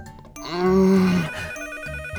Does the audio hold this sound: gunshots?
no